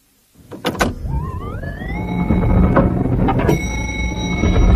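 An elevator in a New York building starts up with a couple of sharp clicks. A mechanical hum and whine then rise in pitch and settle into a steady rumble, joined near the end by a sustained high tone.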